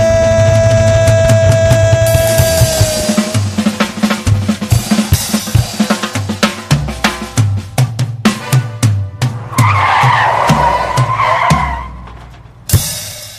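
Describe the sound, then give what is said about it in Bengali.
A car's brakes screech amid a loud, chaotic jumble of engine and impact noise, with a long tonal squeal early on and a shrill grinding band later, punctuated by sharp repeated bangs before cutting off. “এই ব্রেকের আওয়াজটা শোনার পর অনেকেই কয়েক minute হয়তো ভাববে কেন আমার অ্যালবামটা ব্রেক কষে শেষ হলো।”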